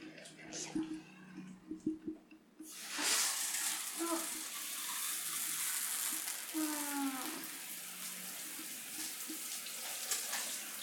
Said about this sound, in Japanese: ちょっと洗い流します。